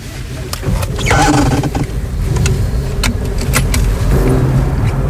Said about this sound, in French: Donc là, on roule sur les berges côté Veolia.